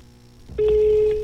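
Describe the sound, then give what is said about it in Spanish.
A telephone tone sounds on a call to a switchboard in Bogotá that goes unanswered. After a brief low rustle, one steady, mid-pitched beep starts partway through and holds to the end. “Y ahí estoy llamando, Conmutación Bogotá, y no responde.”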